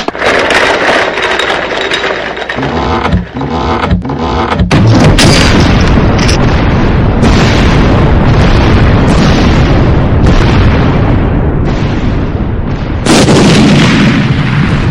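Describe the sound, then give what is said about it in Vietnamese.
Ear-splitting clang of a coffin lid bursting violently open and flying about a meter: a loud, dense roar fills the whole stretch, with a heavy burst near the middle and another surge toward the end. “Một tiếng choang vang lên inh tai. Quả nhiên nắp quan tài bật rất mạnh, lao ra xa khoảng 1 mét về phía Lâm Nhuận đứng.”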